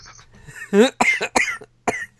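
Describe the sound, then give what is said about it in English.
A man coughs in four short, harsh bursts spaced unevenly, with quiet gaps between them; the first burst is the fullest and most voiced. “He's coughing.”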